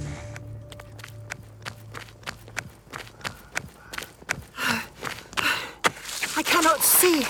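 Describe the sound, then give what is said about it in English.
Running footsteps of people fleeing down a street from a pursuing creature: a rapid, steady patter of many firm steps, giving way to heavy panting breaths and gasps toward the end. “I just suggest we keep on running.”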